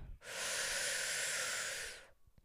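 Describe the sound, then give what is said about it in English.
A single long, deep inhalation through the mouth as part of a guided breathing exercise, a steady airy hiss lasting about two seconds, soft and alone. “Let's take a nice deep breath in”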